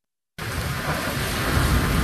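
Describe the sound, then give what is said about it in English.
Gushing rain pours during a flood in mountain villages along the Nepal–Tibet border. A dense, roaring hiss cuts in abruptly after a brief silence and holds loud and steady to the end. “That was the sound of gushing rain”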